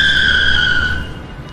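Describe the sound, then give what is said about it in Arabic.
A speeding car's tires screech as it skids: a loud, high-pitched, sustained squeal over a low rumble, fading after about a second. “تكاد السيارة المسرعة أن تصدم الطفلة الصغيرة.”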